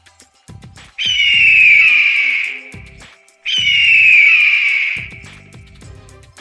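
Two drawn-out, shrill screeching cries of a giant mythical bird, each lasting about two seconds with a short gap between them. Both are loud and high-pitched with a harsh, whistling edge.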